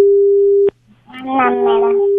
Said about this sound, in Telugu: అయ్యయ్యో, మీ call cut అయినట్టుంది, మళ్ళీ ప్రయత్నించండి.